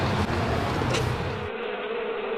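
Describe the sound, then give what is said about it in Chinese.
Honeybees buzz as they escape from hives around midday as the temperature rises. It is a dense, continuous, moderately loud hum, and its low rumble thins after about a second and a half. “临近中午，温度越来越高，蜜蜂大量外逃。”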